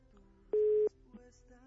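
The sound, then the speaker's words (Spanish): A telephone line tone sounds during an unanswered call: a single steady mid-pitched beep lasting about a third of a second over faint line noise. “Pues no, acá ya no contesta Nora.”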